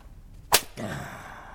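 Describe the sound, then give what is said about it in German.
A single sharp backhand slap across the face with the right hand cracks out once, followed by a low rumbling tail. “So geht das. Also, wenn du so eine Ohrfeige beherrschst, werden sich deine Kunden nicht mehr zurückhalten wollen.”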